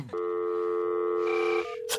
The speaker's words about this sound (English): So now I'm calling the Baptist church.